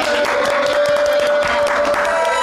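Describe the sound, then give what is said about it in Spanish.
Audience applause for a singer, with loud, dense clapping that stays steady throughout over a sustained, even tone running underneath. “Un aplauso por ella.”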